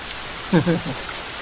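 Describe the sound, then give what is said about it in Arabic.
A steady rain hiss runs through the whole moment as a sound effect. A brief spoken voice breaks in over it near the middle. “صوت مطر هاد”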